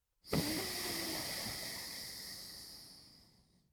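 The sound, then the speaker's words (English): A single long exhale through one nostril during alternate-nostril breathing, heard as a steady airy hiss that starts abruptly and slowly fades out over about three seconds. “Now press down on the right nostril. Breathe out through the left nostril.”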